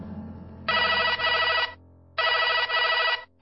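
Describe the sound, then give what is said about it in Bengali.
A mobile phone left on a bed rings unanswered, with two long bursts of a bright, warbling electronic ringtone separated by a short pause. No voices are heard. “ফোনটা বেজেই যাচ্ছে, ধরছেও না।”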